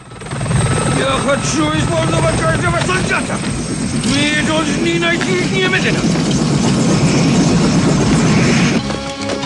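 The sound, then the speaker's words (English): A Russian military helicopter lands by a crash site in a film scene. Its steady, heavy rotor roar runs throughout, mixed with music and voices. “A Russian chopper lands by the crash site.”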